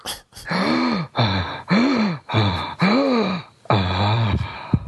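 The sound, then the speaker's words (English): A person breathing in and out heavily, making a series of voiced, gasping breaths in a steady rhythm. Each breath has a pitch that arcs up and then down. “I'm going to breathe in and out.”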